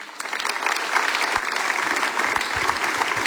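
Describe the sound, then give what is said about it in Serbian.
An audience applauds a band with a full burst of clapping that swells slightly at the start and then holds steady and loud throughout. “Aplauz pozdravite projekt, dakle, sastav projekt band plus minus 60 i leti vrime.”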